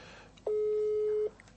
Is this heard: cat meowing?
no